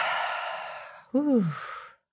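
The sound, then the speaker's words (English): A deep breath is let out during a guided breathing exercise. A long, airy exhale lasts about a second, then a short voiced sigh falls in pitch and fades to silence. “Take a deep breath in. Hold it. Exhale.”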